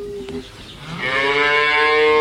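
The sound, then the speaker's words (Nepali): A hungry cow gives a single loud, drawn-out moo that swells in strength toward the end, with a rich harmonic tone heard on its own. “ओहो, गाईलाई भोक लागेको जस्तो छ।”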